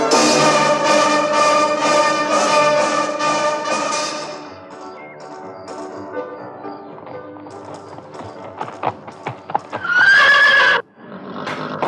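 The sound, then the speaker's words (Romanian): A chestnut stallion neighs, a loud, strained whinny near the end that follows a run of sharp hoof clip-clops, after a dense sustained harmonic sound in the opening seconds. “Are un armăsar roib care se va îngriji să-ți piară lăudăroșenia.”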